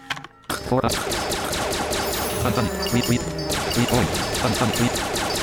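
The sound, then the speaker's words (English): A needle launcher fires in a video game: after a brief quiet moment, loud rapid-fire bursts rattle out in a dense, continuous volley with sharp overlapping impacts. “Alright, he needs to die right now. Needle launcher time.”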